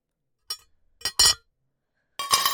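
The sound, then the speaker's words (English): Glasses clink as wine is served at dinner: a few sharp, bright chinks of glass separated by near silence, the last one ringing a little longer. “Okay, I'll serve the wine while you serve the food.”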